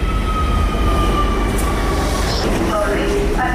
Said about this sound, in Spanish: Nuestra compañera Inma Morán ha bajado al metro para hacer el mismo recorrido que hizo el convoy siniestrado y preguntárselo a los usuarios.